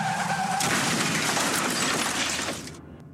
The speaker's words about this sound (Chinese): 继续直行, 可能就是一场危及生命的车祸。